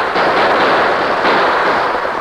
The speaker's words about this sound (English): The premature explosion at the gap threw the rustlers into a panic.